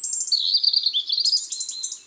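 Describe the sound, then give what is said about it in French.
High, thin calls of European robins in winter: a rapid run of squeaky, piercing notes that shift up and down in pitch, heard alone and fairly loud. “Tous ces tic-tic-tic, tic-tic-tic-tic. Et les rouges-gorges lancent aussi des petits cris suraigus.”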